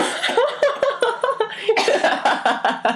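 A person coughs and chokes on cheese in a rapid run of many harsh, voiced bursts that keep a quick, uneven rhythm and stay loud throughout, with no clear words.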